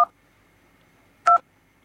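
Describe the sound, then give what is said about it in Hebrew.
Telephone keypad dialing tones sound as two short, steady dual-pitched beeps, about a second apart, with quiet between them. “כן, נכון שאנחנו מחייגים למישהו בטלפון, אז יש כזה את הצליל מקשים, אז אנחנו הולכים להשמיע לכם עכשיו את כל המקשים מ-1 עד 0,”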